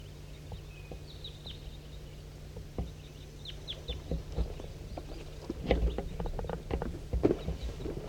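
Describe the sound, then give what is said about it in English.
Calls of a big flock of birds flying overhead, undulating over a hollow: many short, high chirps and soft fluttering ticks scattered over a steady low hum, growing busier toward the end. “There goes one way over the top, undulating over the top of the hollow. And there's another big flock somewhere.”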